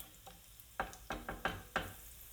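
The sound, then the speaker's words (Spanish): Garlic frying in a pan for a mountain-style rice with ribs and mushrooms: a faint, steady sizzle with a few sharp knocks of stirring at an uneven pace. “Estos ajos los voy a sofreír 3 o 4 minutos antes de añadir la cebolla y el pimiento.”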